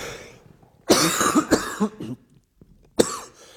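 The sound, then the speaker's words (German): A coughing fit: a few harsh, loud coughs come in bursts, a cluster close together and then one more sharp cough after a short pause, with no talk. “jetzt kriege ich hier echt Hustenanfälle.”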